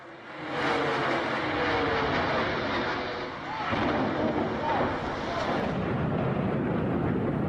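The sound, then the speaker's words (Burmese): Archival recording of the World Trade Center collapsing in the 9/11 attacks: a dense, loud, sustained roar of rumbling noise that dips briefly midway, then continues just as heavily. “အခုကြားခဲ့ရတာကတော့ 9/11 လို့သိကြတဲ့စက်တင်ဘာ17ရက်အကြမ်းဖက်တိုက်ခိုက်မှုအတွင်းကမ္ဘာကုန်သွယ်ရေးအဆောက်အုံတွေကိုအကြမ်းဖက်သမားတွေကလေယာဉ်နဲ့တိုက်ခဲ့တော့ကပါဒီအဆောက်အုံပောက်ကွဲတာပြိ”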